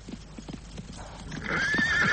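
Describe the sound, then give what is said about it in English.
Hooves of a galloping horse on a foggy, windy morning: a quick run of clip-clop beats, then a loud, high whinny takes over. “Rein in that horse! Control it!”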